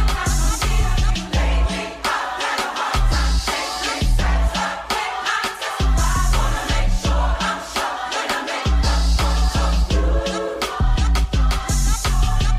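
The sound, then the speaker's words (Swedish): Music from a Louis Vuitton fashion show in Paris: a loud, beat-driven track with a heavy pulsing bass and dense upper layers, where the low end drops out briefly a few times before the groove returns. “musiken från hans Louis Vuitton-visning i Paris förra året.”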